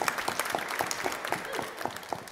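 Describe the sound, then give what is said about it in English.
A church audience applauds at a baptism, with many hands clapping in a steady, moderately loud patter throughout. “And Amelia started clapping. I think we should join her, shall we?”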